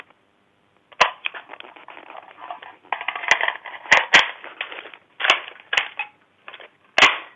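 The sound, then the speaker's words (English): Mechanical handling of a rifle as an empty magazine is removed, a magazine is replaced and the gun is readied to fire: a quick series of sharp metallic clacks mixed with rattling and scraping over several seconds, with brief pauses between. “The noise you heard was my having a rifle with an empty magazine. I removed the empty magazine, replaced the magazine, and got the gun ready to fire again.”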